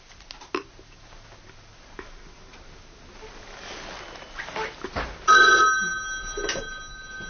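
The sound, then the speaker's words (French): A telephone rings at a retirement home's switchboard, the ringing arriving late as a bright, steady electronic trill over faint background noise. “Ça va sonner, il va appeler.”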